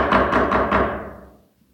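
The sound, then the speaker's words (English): Hard, heavy knocking on a door: a quick run of loud, forceful thuds, each with a short ringing tail, fading out after the last blow. “knocking on the door. Not that friendly knock. That mean knock.”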